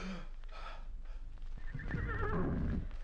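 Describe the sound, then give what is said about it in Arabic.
A horse whinnies after being struck by an arrow. Soft breathy snorts come first, then a shrill, wavering neigh in the second half. The whole sound stays fairly quiet. “أخطأت من انفعالي، أصبت الحصان وكريم سليم. يا إلهي ما هذا؟ سقط الحصان.”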